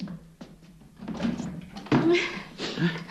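A door being opened gives a dull thunk partway through amid rustling, muffled background noise.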